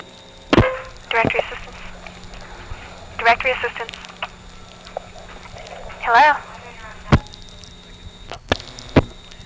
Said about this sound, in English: One heck of a noisy coin return there.